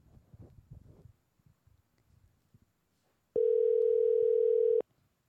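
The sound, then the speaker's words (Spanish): Ringback tone of an outgoing telephone call: a single steady, loud, mid-pitched tone lasting over a second, preceded by a stretch of faint, low murmuring. “Estamos llamando a Yoshi, vamos a ver.”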